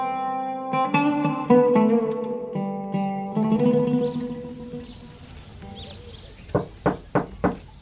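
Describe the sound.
Knocking on a door: four sharp, evenly spaced raps come near the end, preceded by a stretch of soft tonal music.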